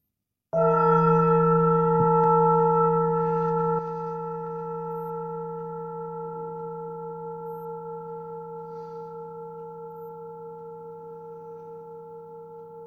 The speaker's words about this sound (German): Und mit dem Ton der Klangschale betrittst du wieder den Raum der Stille.